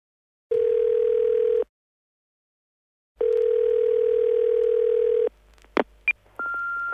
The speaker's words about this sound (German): Sie suchen eine Wohnung und hören den Anrufbeantworter einer Immobilienfirma.